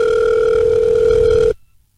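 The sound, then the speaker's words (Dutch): A telephone dial tone sounds while a call is being placed: a steady, loud, unbroken tone on its own that cuts off abruptly after about a second and a half, leaving near silence. “En die gaan we nu even officieel openen. We gaan even bellen.”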